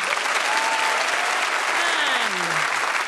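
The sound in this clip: A studio audience applauds to welcome the teams of a panel show, with loud, dense clapping that holds steady from start to finish.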